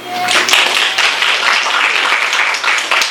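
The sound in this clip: Audience applause welcoming a speaker to the front: a dense, steady wash of many hands clapping that holds at an even level for the whole stretch, with a faint low hum underneath.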